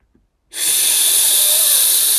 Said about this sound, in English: With the air we breathe in, we breathe it in very cold, and that means we purse our lips into a tiniest hole you can, like this.